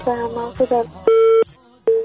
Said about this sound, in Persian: با تاسف که تماس مسئول میهن دوست قطع شد.